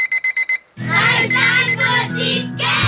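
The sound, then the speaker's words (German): An alarm clock rings in five quick, evenly spaced bright bursts. The ringing then gives way to a voice over steady music. “Ein schönes Geräusch, dieser Wecker.”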